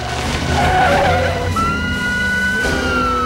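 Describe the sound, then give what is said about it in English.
Tires squeal as a Lincoln swerves wildly and skids along a road. The engine roars steadily throughout, and a long, high, sustained tire screech rises loud over it in the second half. “swerving wildly along the road”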